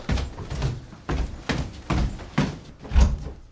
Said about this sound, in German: Der Gutachter schließt die Schlafzimmertür oben im ersten Stock.